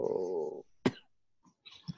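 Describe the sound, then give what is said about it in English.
A short, sharp cough breaks a quiet stretch, set between brief voiced sounds and followed by faint vocal noises and another soft burst. “Excuse me, I'm gonna be coughing a little bit here.”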